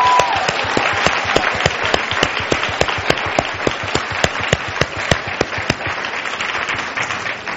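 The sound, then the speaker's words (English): Audience applause at a panel event: many hands clap in a dense, lively burst with sharp individual claps standing out, loud and sustained throughout. “Let's give one more round for Lisa for doing it.”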